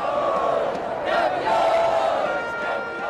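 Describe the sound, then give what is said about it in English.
Soccer fans cheer and chant at Lisbon airport as they welcome home Portugal's men's national team, newly crowned European champions. A dense, continuous roar of overlapping voices with sustained chant tones stays steady and loud throughout. “Soccer fans at the airport there in Lisbon welcoming home Portugal's men's national team.”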